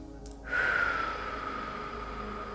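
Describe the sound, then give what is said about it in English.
Deep inhale through the nose during a guided breathing exercise: a soft, airy intake of breath that begins partway in and continues steadily. It is faint, with no talk. “We're going to focus on taking a deep inhale through our nose.”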